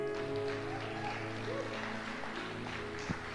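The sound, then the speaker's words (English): Audience applause welcomes a guest to the platform at a church service, a steady dense patter of clapping that holds evenly throughout, with a faint sustained musical tone beneath it. “Why don't you come, bro? Let's give him a hand.”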